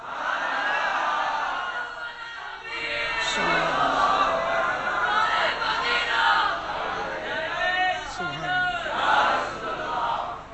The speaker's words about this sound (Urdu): میں نے سرکار کا نام لیا اور آپ کے نعرے شروع ہوئے